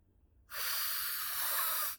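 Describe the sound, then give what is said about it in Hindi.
One heavy, forceful breath with a loud, hissing rush of air follows a moment of near silence and lasts about a second and a half before cutting off. “इतनी तेज सांसें कर रखी है आपने कि आपका sound जो है सांस का, आप ही को सुनाई दे रहा है।”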